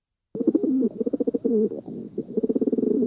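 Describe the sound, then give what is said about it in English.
Low, throaty cooing of a rock pigeon: soft, warbling notes pulse in short rhythmic runs that break off and start again several times, alone with no other sounds. “may recognize the noise you just heard. If you did not recognize it, the bird that you were just hearing goes by many names, but the most common is pigeon. More correctly, the rock pigeon,”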